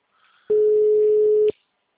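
A single steady mid-pitched telephone line tone plays while an automated phone menu is being called. It lasts about one second, starts and stops abruptly, and is heard on its own without talk.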